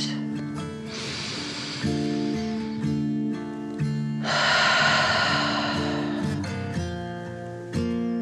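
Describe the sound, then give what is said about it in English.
Two slow, deep calming breaths, each a soft airy rush, drawn over gentle sustained music. “Anora took another dragon breath, calming her body in and out.”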